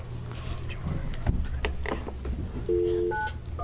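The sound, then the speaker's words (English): A telephone number is dialed: a few short keypad beeps near the end, each at a different pitch, over low steady background noise. “We're just going to dial a number here, and then I'm going to get to your testimony.”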